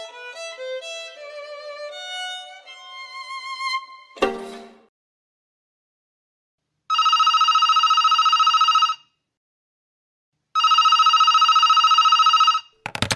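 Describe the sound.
A telephone rings for an incoming call: two long, steady electronic ring bursts separated by a silent pause. They follow a brief tonal melody and a sharp click.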